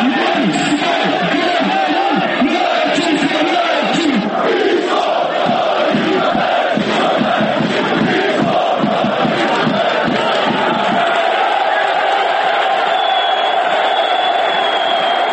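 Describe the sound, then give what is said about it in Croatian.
Football fans in the south stand of a stadium chant loudly as one mass of voices. The rhythm is pulsing at first, then settles into a more sustained roar toward the end. “Izostala je i reakcija policije, igrači su bili zbunjeni, dok su događaj jasnom porukom ispratili navijači sa južne tribine stadiona.”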